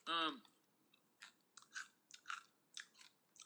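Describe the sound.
Crunchy chewing of sweet potato chips: after a short vocal sound at the start, many separate crisp crunches and bites come in irregular bursts, loud and close.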